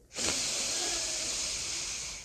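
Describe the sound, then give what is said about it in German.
A single slow breath drawn in through the left nostril, a soft airy hiss that starts abruptly, holds steady for about two seconds and tapers slightly at the end. “Und mit der nächsten Ausatmung verschließe dein rechtes Nasenloch mit dem Daumen. Atme links ein.”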